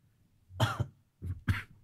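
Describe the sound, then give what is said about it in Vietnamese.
A person coughs a few times in two short bursts, each made of harsh, chesty coughs, with near silence before and between them. “Ho quá cơ. Ho quá.”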